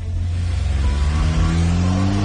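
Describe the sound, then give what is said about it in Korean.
A taxi car engine revs as the car drives off, a loud, steady low rumble with a tone that rises gradually through the short burst. “택시 문이 열리자 도도는 가방을 안에 넣고 탔다. 그리고 기사에게 영경로로 가달라고 차분하게 말했다.”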